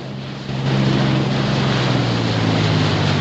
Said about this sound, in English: The boat's throttle is pulled back as it draws alongside the submarine's curved flank.